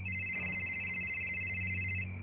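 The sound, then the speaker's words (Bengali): A telephone rings with a steady, high electronic tone over a low hum. It sounds continuously for the whole stretch, and no one speaks. “ওই বাস থেকে phone দিয়েছিল”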